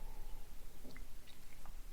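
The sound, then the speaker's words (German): A sip of coffee, heard as soft, wet slurping mouth sounds with small squishy clicks, faint and alone. “So, jetzt kommt erstmal ein Schluck Kaffee, sonst wird der kalt.”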